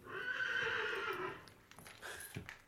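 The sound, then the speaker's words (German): A horse in a row of stabled horses gives a quiet, drawn-out whinny. A few soft knocks and shuffles, like hooves, follow it. “Drüben in der Reihe hat das dritte Pferd gewiehert.”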